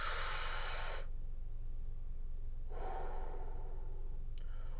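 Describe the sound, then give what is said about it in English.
People inhale deeply during a guided breathing exercise: two airy, hissing breaths, a strong one about a second long and a fainter, shorter one, separated by quiet over a low, steady hum. “We're going to breathe in 3 times and we're going to release 3 times, okay? You ready? 1, 2, 3, inhale.”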